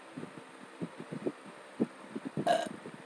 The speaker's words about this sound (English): I'm sorry about that. That was a burp. That was not supposed to happen.